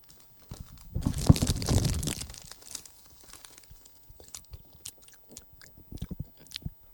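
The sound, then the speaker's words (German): Someone opens and eats a chocolate bar. A loud burst of crinkling and snapping comes first, then faint, irregular crunchy chewing. “Komm, ich habe hier noch die Schokolade. Wollen wir sie essen?”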